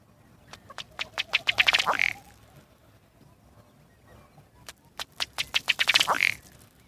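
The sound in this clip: Diving ducks quacking in two bursts of rapid, accelerating calls, each a run of sharp nasal quacks that quickens and ends in a louder honk, separated by a quieter pause.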